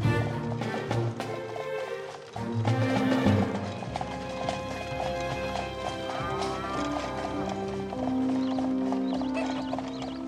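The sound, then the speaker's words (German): Hooves clip-clop steadily as a horse-drawn carriage drives along, the even rhythmic beat carrying on throughout over continuous music. “So fuhr die Frau in einer prächtigen Kutsche zu dem Hof”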